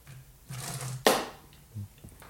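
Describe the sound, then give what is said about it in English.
A can of lavender lemonade cracked open: a single sharp pop with a brief hiss of fizz, then quiet. “Benjamin is not really appreciating all of this can opening.”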